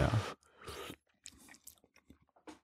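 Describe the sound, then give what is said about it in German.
Mouth sounds of someone tasting broth from a spoon out of a screw-top glass jar: two louder slurping bursts at the start, then a few faint clicks and smacks, with no talking. “aber ich probiere jetzt erstmal mit einem Löffel aus diesem Hipster-Schraubglas die Brühe.”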